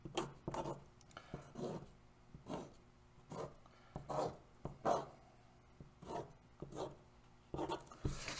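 Someone sketches a diagram by hand, making many short, faint scratching strokes in an uneven rhythm, with quiet pauses between strokes.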